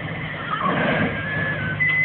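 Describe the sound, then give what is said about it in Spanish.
Horses neigh nervously, a thin, high whinny rising out of a muffled, rumbling background toward the end. “Los caballos advierten su presencia y relinchan nerviosos.”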